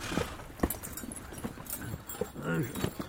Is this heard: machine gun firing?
no

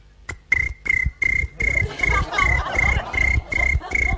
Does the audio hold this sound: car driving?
no

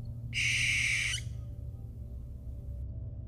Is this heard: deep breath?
no

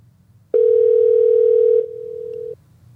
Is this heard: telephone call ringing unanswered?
yes

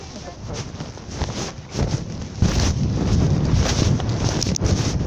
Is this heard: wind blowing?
yes

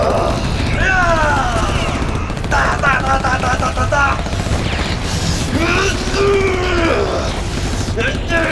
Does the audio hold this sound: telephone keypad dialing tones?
no

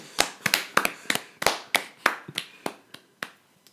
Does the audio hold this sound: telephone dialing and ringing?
no

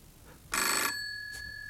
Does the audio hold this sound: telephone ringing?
yes

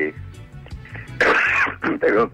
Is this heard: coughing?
yes

